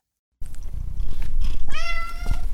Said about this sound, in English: I'm Gary Niederhoff, and that's my cat, and he's taken up hunting